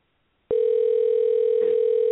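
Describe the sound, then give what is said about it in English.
Telephone dial tone heard right after the dial button is pressed: a single steady, unbroken tone that starts abruptly after half a second of silence and holds at an even level to the end. “I hit the dial button for Mr. Stone. Let's see what happens.”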